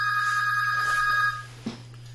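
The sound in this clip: A telephone rings on an unanswered call, a steady, buzzy electronic tone over a low hum that cuts off after about a second, followed by a brief click.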